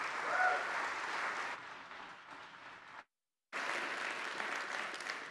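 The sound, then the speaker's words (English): A church audience claps to welcome a visiting evangelist at a Baptist service: a dense, even wash of applause that cuts out to silence for a moment, then resumes at the same strength. “why don't we give him a warm Pacific Baptist welcome as he comes.”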